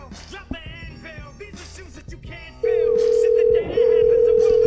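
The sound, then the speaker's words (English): A cell phone call tone: after people talk, a steady, loud, mid-pitched hum sounds on the line for about two seconds, breaks off briefly, then resumes. “let's get him on the cell phone.”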